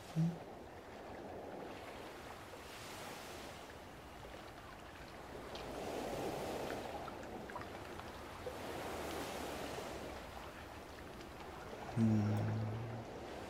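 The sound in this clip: Water waves wash in as faint, slow surges of surf, swelling and receding in a gentle rhythm every few seconds over a soft, airy background.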